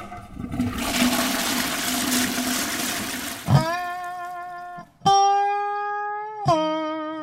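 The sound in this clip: A toilet flushes with a loud rush of gurgling water for about three and a half seconds. Steady whistling tones follow, shifting in pitch a few times as the tank refills.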